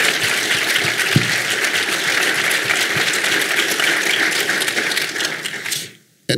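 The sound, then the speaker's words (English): Audience applause at a live event: a dense, steady crackle of many hands clapping together, holding an even, loud level for about six seconds before cutting off abruptly. “I want to give a hand to the audience for that.”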